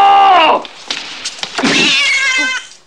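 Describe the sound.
A cat meows twice, loud and alone: the first meow is short and falls in pitch, and after a brief pause the second is longer and wavering.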